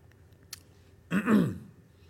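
Throat clearing with a cough, someone reacting to a tickle in the throat during a discipleship class: one short, harsh, breathy burst after a faint click, with quiet before and after.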